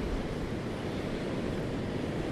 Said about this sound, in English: It's absolutely blowing a flipping gale. It's grey, it's cold.